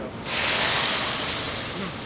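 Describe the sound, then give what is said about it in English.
Water poured into a hot pan of caramelized browned onions and quinoa. A brief quiet moment gives way to a steady, broad hiss and sizzle that holds and then eases slightly toward the end. “Okay, we're going to add the quinoa. Okay, and then we're going to add some water.”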